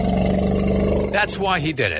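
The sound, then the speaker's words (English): An angry elephant trumpets in harsh, brassy roaring blasts that follow a man's short spoken line, rough and loud with wavering pitch. “What is that? That's the sound of an angry elephant. That's the sound you hear right before your head gets stomped like a grape.”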